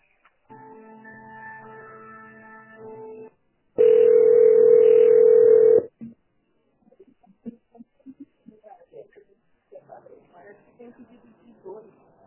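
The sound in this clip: A telephone dial tone follows a dropped call: a humming, multi-tone signal gives way to a loud, steady single tone lasting about two seconds, then faint talk resumes.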